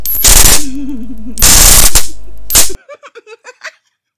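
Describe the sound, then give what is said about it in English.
Stun gun zapping in three loud, crackling bursts of buzzing electric discharge, the middle one the longest. A few short, faint sounds follow. “Oh, is that a stun gun?”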